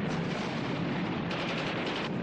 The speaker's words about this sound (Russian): Некоторые красноармейцы стреляют по самолетам из ППШ и противотанковых ружей.